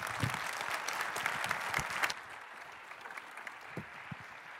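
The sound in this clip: Audience applause welcomes the chaplain of the United States Senate. Dense clapping holds strong for about two seconds, then thins to quieter, scattered claps.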